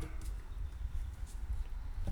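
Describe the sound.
Stampeding horses sound effect from a game, a continuous low rumble of many pounding hooves that stays steady and fairly loud throughout.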